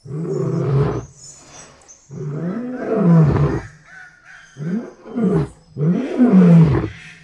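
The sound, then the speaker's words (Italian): A lion, a big cat, gives several loud, rasping, drawn-out roars in a row, each separated by a brief pause. “E tanti suoni misteriosi, come il richiamo di un grosso felino.”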